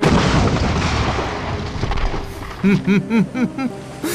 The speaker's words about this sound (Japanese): 主砲発射準備。砲門開け。 砲門開け。仰角30度、 砲撃を開始せよ。撃て。